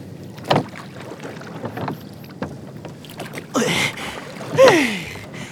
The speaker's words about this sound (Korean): 그리고는 아무도 쫓아오지 못하게 배를 타고 바다로 나갔지요.